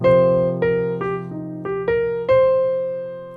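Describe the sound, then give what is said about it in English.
A descending and ascending jazz arpeggio in eighth notes: clear, sustained tones step downward over a held low note, then climb back up, with the last note ringing out and slowly fading. “our descending, ascending arpeggio motion sounds like this.”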